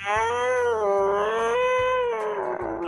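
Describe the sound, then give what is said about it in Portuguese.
A cat yowls in one long, loud, continuous wail with a wavering, strained pitch, heard alone without voices. “isso daí se chama gato. Eles levam o gato dentro do submarino e ele pisa no rabo dele”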